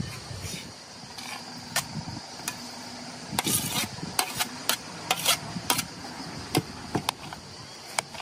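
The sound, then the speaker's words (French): Herring being cut finely into small pieces with a knife, heard as irregular sharp clicks and knocks, denser in the middle, over a low steady hum. “Ensuite, couper le hareng finement, des morceaux euh, comme un petit doigt.”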